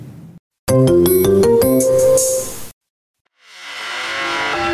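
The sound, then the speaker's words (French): A phone ringtone announces an incoming call with a bright, melodic run of electronic notes lasting about two seconds before it cuts off abruptly. A swelling hiss-like noise follows after a brief silence. “Attendez, j'ai quelqu'un m'appelle.”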